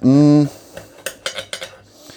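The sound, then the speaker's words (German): Cutting a freshly baked pizza produces a run of sharp, uneven metallic clicks and taps, like cutlery striking a dish. There are several quick, moderately loud hits and no talk. “Meine Pizza ist gerade fertig. Ich schneide die schon mal eben.”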